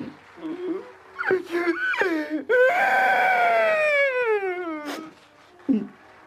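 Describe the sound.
A voice imitates a clown crying: a few short, choked sobs lead into a long, loud wail that slides downward in pitch. A brief sob follows at the end.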